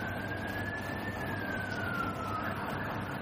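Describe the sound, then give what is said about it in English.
An ambulance siren carries a single thin wailing tone that glides gently up and then slowly down, fairly faint over a steady wash of background noise. “That's the ambulance for Peter.”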